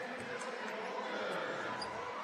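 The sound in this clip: A basketball bounces a few times on the court as a player readies a free throw, faint beneath a steady crowd murmur and a speaking voice.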